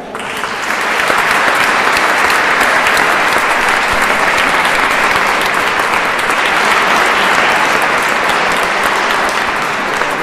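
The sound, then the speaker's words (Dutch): Warm audience applause for a man from Barcelona before a piano piece: after a brief quiet start, dense clapping from many hands holds steady and strong to the end. “mag ik een warm applaus aan deze man uit Barcelona.”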